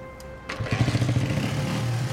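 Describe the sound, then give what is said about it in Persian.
A motorcycle engine catches after a brief start-up burst, then runs with a loud, low throbbing putter that pulses steadily as the rider gets going. No talk. “امیر سوار موتورش میشه”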